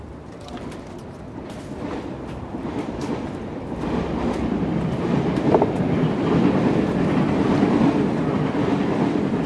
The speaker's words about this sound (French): Aujourd'hui, 4e épisode, on commence par prendre un RER.